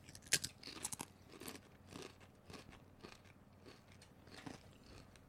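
Crunching of Spicy Pineapple Jalapeno Doritos chips being bitten and chewed: a few sharp, crackly bites near the start, then softer, steady chewing crunches, fairly quiet and with no talk.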